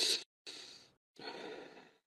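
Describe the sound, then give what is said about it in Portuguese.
Soft breaths from a person demonstrating the slow, shallow breathing of someone depressed: three faint, airy breaths, a short one followed by two longer drawn-out ones, with brief silent gaps between. “Uma pessoa deprimida, ela respira como? Ela puxa o ar devagarzinho, só, assim, ó.”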